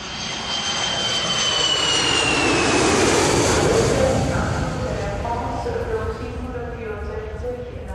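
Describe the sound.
Jet aircraft engines at Düsseldorf Airport, a broad loud roar with a high whine that slowly falls in pitch, swelling toward the middle and then easing off.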